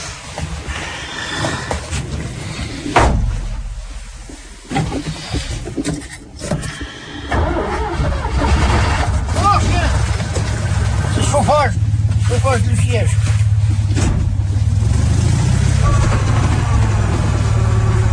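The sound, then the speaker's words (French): A car left standing in the sun is started with the key: talk and clatter at first, then the engine catches and settles into a steady, low idle for the rest. “Ça va, elle a démarré? Ah ben, elle était restée au soleil, en tournant la clé.”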